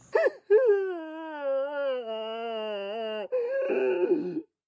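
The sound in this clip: A madwoman wails loudly while looking up at the sky: a short cry, then a long, wavering, sustained moan, ending in rougher, broken sobbing.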